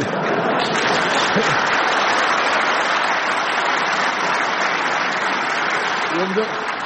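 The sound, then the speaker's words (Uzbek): Steady applause from a crowd, a dense and unbroken patter of clapping that keeps a constant loudness for about seven seconds. “Qarsaklarga e'tibor bering. Shavkat Mirziyoyev Ibn Sinoning boshini kesib, Ulug'bekning tanasiga o'rnatib qo'ygani uchun yangrayotgan qarsaklarga e'tibor bering.”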